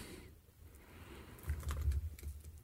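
Typing on a computer keyboard: a fast run of crisp key clicks that grows louder and denser in the second half, over a faint low background hum.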